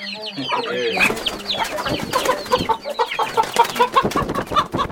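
Chickens cluck and chatter on a poultry farm in Kakamega County, Kenya, a busy stream of many short, sharp clucks and squawks, some higher and drawn out at the start.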